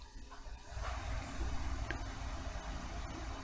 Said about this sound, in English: Now we have the beeping in the background.